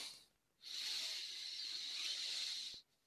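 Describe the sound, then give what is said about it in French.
A deep breath drawn in as one long, steady, airy hiss lasting about two seconds, soft and alone with no talk. “Prenez une bonne inspiration.”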